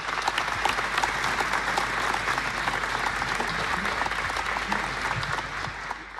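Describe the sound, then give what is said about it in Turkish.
Steady, dense applause from an audience welcoming a folk singer and saz player to perform an Erzincan folk song, sustained at an even level and easing off slightly at the end. “Erzincan türküsünü seslendirecek sanatçımız sesiyle ve sazıyla geliyor. Süleyman Yıldız'ı alkışlıyoruz.”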